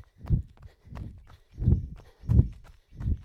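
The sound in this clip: Heavy thudding footfalls of a person running during a group workout, five low, evenly spaced steps in a steady rhythm, with no talking.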